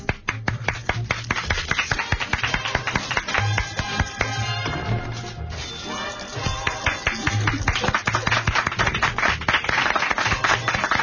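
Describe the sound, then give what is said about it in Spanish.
A game show audience applauds: dense, steady clapping from many hands runs the whole eleven seconds, easing a little near the middle before rising again. “¡Aplausos para él!”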